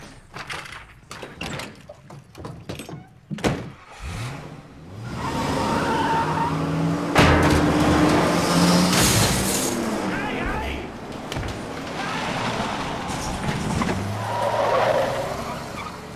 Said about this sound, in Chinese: 小粉故技重施，趁其不备，开车就溜。